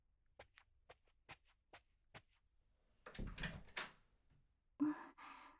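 A door being opened, quiet overall: a run of faint sharp clicks, then a rustling scrape and a louder thump near the end.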